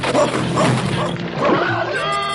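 A dog barks a few times in short, sharp, yappy bursts, close together and fairly loud.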